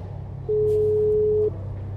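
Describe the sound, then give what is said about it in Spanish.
Telephone dial tone after the receiver is lifted to dial a number: a single steady, level tone lasting about one second over a low background hum. “Descuelgo el teléfono y empiezo a marcar el número.”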